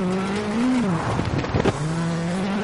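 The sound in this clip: A rally car's engine drones while it drives on asphalt in a racing simulator video game. The loud, steady tone rises briefly in pitch and then dips, with a short burst of rough tire noise partway through.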